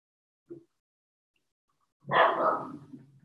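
Dog barking: a short, faint yelp, then after a pause a louder, sustained burst of barking about a second long that trails off.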